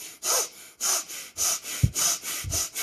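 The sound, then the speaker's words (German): Rapid breathing in and out through the nose, done as a breathing exercise. A quick, steady series of forceful, hissing nasal breaths is heard alone, without talk. “Dann atme schnell durch die Nase, 3-mal ein und aus. Also so.”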